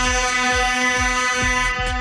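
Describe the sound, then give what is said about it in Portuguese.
A vehicle horn sounds as one loud, sustained, buzzy blare held steady for the whole stretch, with no talk over it. “Nossa, eita, essa é de respeito, hein? Que buzina é essa?”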